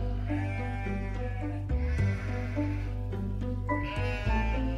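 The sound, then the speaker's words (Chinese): Sheep in a flock, driven along by an outsider passing through Shigang, bleat repeatedly over steady background music. “有一天，有个外地人。赶着一群羊经过石冈，”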